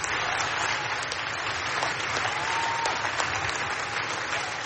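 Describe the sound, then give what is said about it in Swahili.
Sustained applause and cheering from young people in the hall of the UN Youth Climate Summit as Greta Thunberg enters, a continuous, dense clapping texture at an even level throughout. “Mwanaharakati Thunberg aliwahutubia vijana kutoka kila pembe ya dunia na alipoingia kwenye ukumbi wa mkutano alipokelewa kwa shangwe.”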